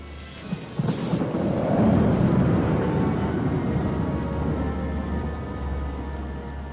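Thunder rolls through a rainstorm, a deep rumble swelling after a brief crack near the start, then fading slowly over a steady hiss of rain.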